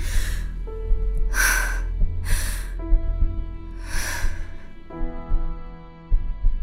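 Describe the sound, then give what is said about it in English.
Slow, deep breathing: a few long, airy breaths rise and fall at a calm, even pace over a low, steady sustained tone. “Can you feel me breathing? Yes. That's good. Okay. Can you breathe with me?”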